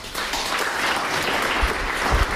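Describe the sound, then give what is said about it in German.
Audience applause for performers: a full, continuous patter of clapping at even strength, with a couple of soft low thumps near the end and no speech over it. “Darum bitte ich jetzt gleich um einen kräftigen Applaus für Jürgen Osterlo”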